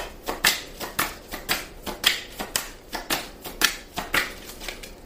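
Tarot cards being shuffled: many quick, crisp snaps and flicks in an uneven rhythm, fairly soft, with no talking.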